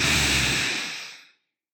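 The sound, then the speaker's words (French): A deep breath during a relaxation exercise, a loud breathy rush of air that starts strong and steadily fades away, ending in silence after a little over a second. “peut-être prendre une profonde inspiration pour vous détendre.”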